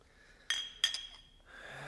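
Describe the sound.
Clink of a clean drinking glass being set out: two brief, bright glassy taps in quick succession, quiet over a low background hush.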